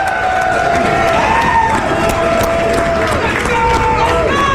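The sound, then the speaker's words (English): Cheering from a large studio audience of about 15,000 people fills the space as a dense, continuous roar of voices, shouting and clapping, holding steady and loud from start to finish. “You know what's shocking? That we got 15,000 people in here today. That's what it sounds like.”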